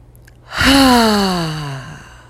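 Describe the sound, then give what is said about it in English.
A single voiced exhale, blown out quickly after a deep breath during a guided breathing exercise. It starts strong, then slides gradually lower in pitch and fades over about a second and a half, alone with no talk. “Take a deep breath. Blow it out quick.”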